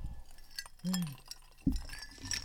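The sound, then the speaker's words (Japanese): Glasses clinking in a toast: a few light, bright glassy clinks that stand out briefly among people talking. “では乾杯。 乾杯。”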